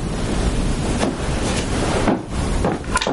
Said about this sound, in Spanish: una ráfaga de aire helado con él